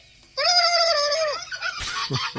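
A parrot's call: one loud, harmonic squawk lasting about a second and drooping in pitch at its end, followed by short, raspy, noisy bursts.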